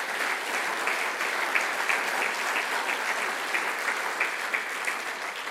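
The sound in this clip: Steady, even applause from an audience greets guests coming up to the stage at a church gathering. The clapping stays at a constant level throughout.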